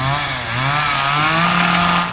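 Chainsaw engine buzzing loudly and continuously for about two seconds, a steady gritty whine that lifts slightly in pitch early on and then holds, with no voices.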